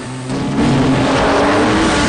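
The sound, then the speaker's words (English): A race car engine accelerating under a nitrous oxide boost: a low, rough roar that jumps sharply louder just after the start and then holds a loud, sustained drone. “Dom calmly triggers his nitrous oxide system, and his car lurches forward.”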